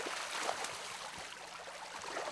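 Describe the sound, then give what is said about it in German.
Water draining through the opened outlet of a carp pond, a soft, steady rushing flow with faint gurgling, no voices. “Fischwirt André Albers öffnet den Abfluss von Teich 31. Das Wasser muss raus.”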